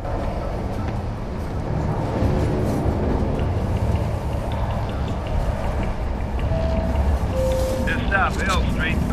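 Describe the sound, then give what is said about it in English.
A subway train rattles through a tunnel with a loud, steady rumble and rattle of rolling carriages that holds from start to finish. “A subway train rattles through a tunnel.”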